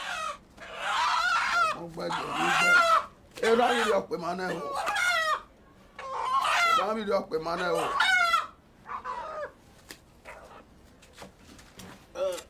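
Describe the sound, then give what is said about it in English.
A chicken clucks and squawks in agitated bursts as a shirtless man plucks it in a small room. Harsh, repeated calls come in many uneven runs with brief pauses between them. “In a small room, a shirtless man sits plucking a chicken.”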